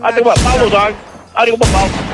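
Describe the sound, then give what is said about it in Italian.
Two pistol shots are fired near someone's feet in an Italian comedy scene, each a sharp loud crack with a lingering boom, amid excited talking voices. “che gli sta sparando nei piedi? No, vicino, niente. Senta, allora lei non deve usare la pistola contro i clienti.”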